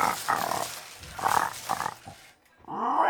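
A pig grunts and squeals during a bingo game. Several harsh, rasping bursts come in quick succession, then a short pause and one more loud squeal at the end.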